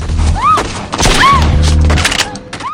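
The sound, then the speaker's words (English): Gunfire in a film action scene as a car window is shot out: several loud, sharp cracks and heavy impacts with smashing glass, interspersed with brief whistling tones. “Eve's car window is shot out.”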